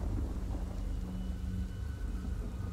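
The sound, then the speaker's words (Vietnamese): Heavy rain pours down on a small rural district, a steady, dense, low rushing roar with no breaks, fairly quiet throughout and carrying a faint constant hum. “Trời vẫn cứ tiếp tục đổ những cơn mưa như trút nước xuống cái huyện nhỏ này”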